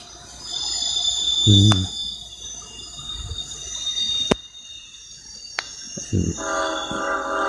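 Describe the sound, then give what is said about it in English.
A train passing makes a sustained rumble with a steady high tonal whine and a few sharp clicks, swelling louder toward the end. “Sorry for the train noise.”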